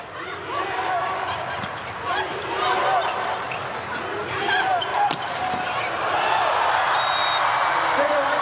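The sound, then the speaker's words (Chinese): A volleyball is bounced a few times before a serve in a women's match between China and Turkey. Sharp, dull thumps rise over steady crowd noise and voices. “比赛继续，基萨尔来发球，”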